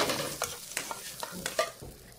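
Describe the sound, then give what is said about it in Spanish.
Vegetables and finely cut salmon sautéing in a pan, with a few irregular scraping stirs over a soft, continuous sizzle. The sound is fairly faint and there is no talk. “Salteamos las verduras. Agregamos el salmón finamente cortado. Tiene que llegar a un tenue anaranjado, ¿lo ves?”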